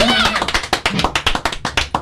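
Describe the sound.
A studio audience claps for a live band: many sharp, uneven claps from a small group, with a brief voice at the start.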